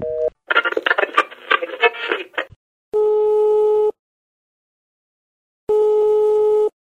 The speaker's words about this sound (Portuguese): Ixi, acho que a ligação caiu.